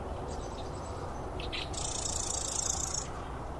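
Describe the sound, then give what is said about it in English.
A marsh wren sings among dead cattails: a faint, buzzy high trill lasting about a second, preceded by a few softer chirps, over steady low background noise. “There's a wren hopping where the cattails are still dead. He's singing over here”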